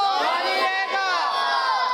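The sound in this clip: Crowd chanting a slogan in unison at a team religious quiz competition: many raised voices shouting together, loud and sustained for the whole moment without a break.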